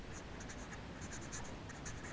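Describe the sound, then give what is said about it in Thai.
Faint scratchy strokes of a teacher writing by hand during a lesson, a steady run of short pen-on-surface scrapes with no talk over them. “เดี๋ยวคุณครูจะเขียนไว้ให้ชัดเจนยิ่งขึ้นนะคะ”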